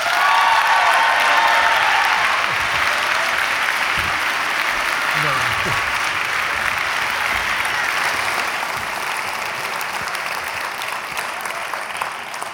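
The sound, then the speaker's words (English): Audience applause in a chapel gives a Hope College welcome to the college president. The clapping is steady and dense from start to finish and tapers slightly toward the end. “I would like you to put your hands together and give a warm, energetic Hope College welcome to our beloved president who's speaking this morning in chapel, John Knapp.”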